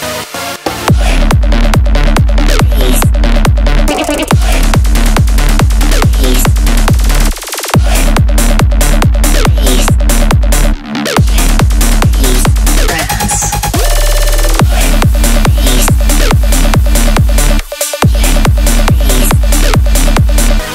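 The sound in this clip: Loud trance music driven by a relentless four-on-the-floor kick drum and pulsing bass, dense and steady, with a few brief moments where the beat drops out.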